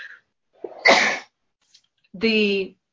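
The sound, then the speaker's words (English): A person sneezes once after a short inhale, then gives a brief voiced sound. “I'm going to sneeze”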